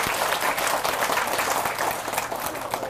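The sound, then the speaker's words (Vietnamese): Audience applause in a talk about overcoming hardship, honoring two attendees who own homes. Dense, steady clapping runs the whole time at moderate loudness, with no speech over it. “các bạn vỗ chào một tay thật là lớn để tán dương”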